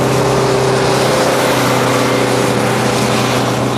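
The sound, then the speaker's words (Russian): A bus's engine drones steadily as it drives along a wide four-lane road that winds around a hill on a banked curve. The low, even hum holds constant throughout, with no voices. “Автобус едет по огибающей холм широкой четырехполосной дороги.”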